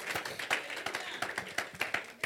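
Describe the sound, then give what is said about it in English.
A church audience claps in praise during a sermon, producing many sharp, separate hand claps in an uneven rhythm at a fairly soft level. “Clap again for the Lord Jesus.”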